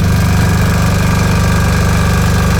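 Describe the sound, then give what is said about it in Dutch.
A power generator runs to supply electricity to a caravan, giving a loud, constant engine drone with a fast throbbing pulse. It goes on without a break, with no talk. “Dat is zijn aggregaat. Van, hij moet natuurlijk wel stroom hebben. Voor zijn woonwagen.”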